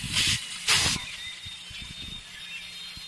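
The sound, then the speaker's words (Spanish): A cooking pot whistling with steam: two short, loud bursts of hissing steam at the start, then a thin, steady high-pitched whistle that carries on faintly to the end. “Ahí está pitando esa olla. Espérate, yo la apago para seguirte contando”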